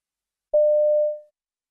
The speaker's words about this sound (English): You hear a woman phoning the reception desk of her hotel.